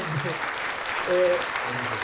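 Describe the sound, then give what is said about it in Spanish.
Applause from an audience, a steady wash of clapping that runs throughout, with a voice briefly heard over it near the middle. “Aplausos.”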